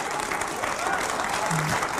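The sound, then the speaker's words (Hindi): Children clapping their hands in a dense, steady applause that continues evenly throughout without a break. “ताली बजा रहे हैं बच्चे।”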